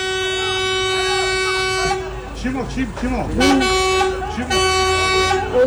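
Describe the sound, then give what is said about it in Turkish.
A concrete mixer truck's horn blares in two long, loud, sustained blasts during a fight. People's voices fill the gap between the blasts. “Görüntülerde bir beton mikseri sürücüsünün de korna çalarak kavgaya müdahale etmeye çalıştığı görüldü.”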